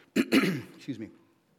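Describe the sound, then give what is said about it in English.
Throat clearing by a man standing at a microphone, a short rasping burst followed by a softer second one, fairly loud and without other talk. “I don't know how to clear my throat when I'm up here with this microphone.”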